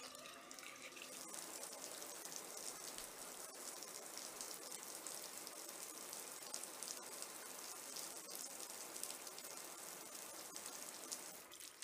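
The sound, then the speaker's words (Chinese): A shower runs in a faint, continuous hiss of spraying water, even and unbroken throughout, with no voices. “好吧，那我先去洗澡。”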